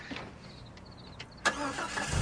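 A Jeep engine starting: a quiet background hum is followed by a sudden catch about two-thirds of the way through, which settles into a steady, louder running rumble.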